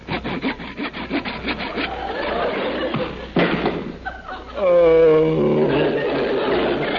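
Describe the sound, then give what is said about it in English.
Wood sawing as a coffee table is cut in half with tools from a toolbox in a comedy scene: quick rhythmic back-and-forth rasping strokes, then a thud, with a voice sounding near the end. “You sawed the coffee table right in half.”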